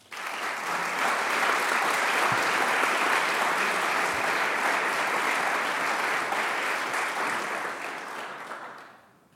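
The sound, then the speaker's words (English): Audience applause welcoming three candidates for Congress at a forum, dense sustained clapping that holds steady before tapering off at the end. “Please welcome them all.”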